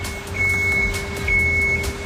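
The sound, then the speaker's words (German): High, thin reversing beeps from an ice resurfacing machine shaving a rink's ice repeat over a steady low engine rumble and hum. “ich bin jetzt schnell bei dir mit auf die Eismaschine gesprungen. Was genau macht denn diese Eismaschine jetzt hier?”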